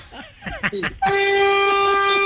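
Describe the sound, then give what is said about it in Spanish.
A vehicle horn honks in one long, loud, steady blast with a bright, buzzy tone, right after a short stretch of talking. “Toque pito.”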